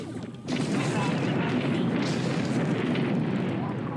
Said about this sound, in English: Here we go. Firing phasers.